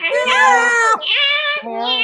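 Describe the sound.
Several cats meow loudly, with overlapping, drawn-out, high-pitched harmonic calls that run in about three bursts with short breaks between them.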